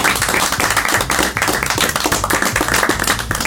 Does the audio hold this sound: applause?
yes

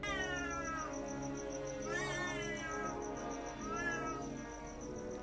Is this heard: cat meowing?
yes

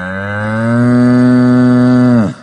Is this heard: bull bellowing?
yes

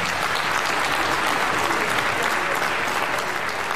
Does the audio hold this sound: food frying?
no

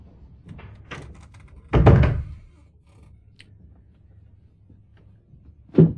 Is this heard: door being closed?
yes

